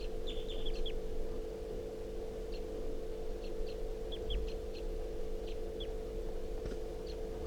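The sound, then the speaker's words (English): Wild bird calling, a scattering of faint, high, thin chirps over a steady low hum and background noise. “This is a wild bird.”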